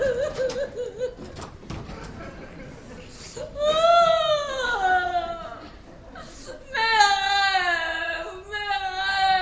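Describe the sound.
A woman cries and sobs in a French stage play, with high, wavering wails in two long bouts separated by a short pause, over a quieter stretch of breathy whimpering.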